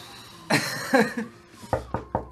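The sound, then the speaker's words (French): Knocking on a door comes as a quick series of sharp, evenly paced raps, after a brief burst of voice sounds. “La porte au toc.”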